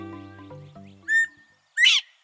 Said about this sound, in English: maybe the most vivid example is the call of the bobwhite. It's the only quail native to eastern North America.